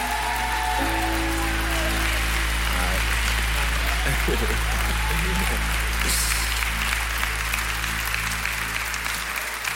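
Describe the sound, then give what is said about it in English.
Church audience applauding to welcome the pastor, with loud, continuous, even clapping throughout and sustained low tones running underneath. “Would you stand up one more time? Put your hands together. Give a big Rock City welcome. Come on to Pastor Patrick Crawford.”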